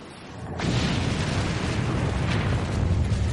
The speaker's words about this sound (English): The air blast also generates a deafening sound.